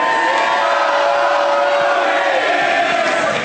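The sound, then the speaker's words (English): Loud, continuous crowd cheering at a live movie-review show, a dense roar of shouts and whoops with some voices holding a sung note through it. “Some of you thought, oh, this is the part where we cheer, and others knew to do the song.”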